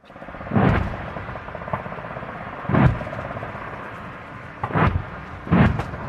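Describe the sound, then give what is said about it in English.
Deep booms of gunfire and explosions from a military live fire exercise near Townsville in Queensland, Australia. Four heavy low blasts stand out, with a few softer thuds and a constant rumbling background between them. “That's the sound of a live fire exercise taking place near Townsville in Queensland, Australia.”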